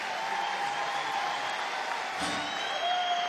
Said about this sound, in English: You'll have to clap louder than that